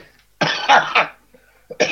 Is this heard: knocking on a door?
no